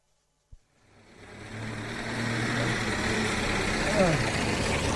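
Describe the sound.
A car engine runs during a ride. A short knock comes first, then the engine builds into a steady, droning hum that holds to the end, with a brief voice near the close.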